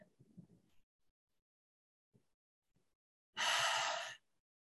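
A deep breath taken together during a guided hand-on-heart practice, heard as one sharp, breathy inhale lasting under a second after a few faint soft sounds.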